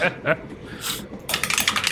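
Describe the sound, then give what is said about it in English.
Plastic clatter of a d20 die rolled through a dice tower during a tabletop game: a couple of isolated clicks, then a rapid burst of bright, rattling taps as the die tumbles down and settles. “I have d4s in my dice tower that I need to remove before I can roll my d20.”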